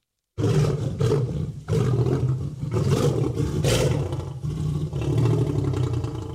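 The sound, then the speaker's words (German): A lion gives deep, powerful roars, a series of loud guttural bursts and growls with short dips between them, heard alone without voices. “Na klar, das ist ein Löwe. Nur ein Löwe kann so gefährlich brüllen.”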